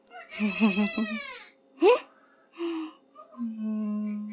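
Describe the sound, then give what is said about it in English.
A baby in a hospital NICU room fusses with a few short, high, wavering whimpers and cries. Brief silences separate them, and the sound is fairly faint overall. “you might hear a baby crying here and there. One's getting worked up right now.”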